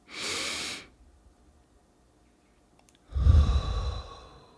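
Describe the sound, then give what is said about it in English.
A deep breath in and out during a guided relaxation exercise: a soft, airy inhale first, then a pause of about two seconds, then a louder, fuller exhale with a low, breathy rumble. “go ahead and do a deep breath with us right now. And let's breathe in.”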